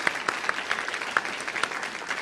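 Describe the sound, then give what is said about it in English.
Applause welcoming a guest speaker at a university lecture, a moderate patter of hands with distinct individual claps standing out in an uneven rhythm. “Let's give him a round of applause and welcome him to Creighton.”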